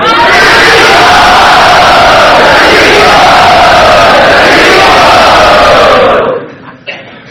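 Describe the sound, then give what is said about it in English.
A crowd chanting Hari Bol as a greeting, many voices joined in a loud, continuous roar that cuts off after about six seconds and leaves a brief quieter tail. “Everyone, please greet him by loudly chanting Hari Bol.”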